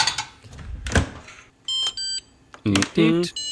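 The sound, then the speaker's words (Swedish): Electronic beeping from a dishwasher: a few short, steady tones in quick succession, following a stretch of talk. “har en diskmaskin som låter så här till exempel”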